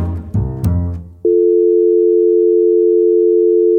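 Telephone line tone while calling an architecture firm: a loud, steady, unbroken single-pitch tone.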